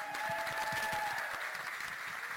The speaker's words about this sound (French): je suis fière d'elle, on peut l'applaudir.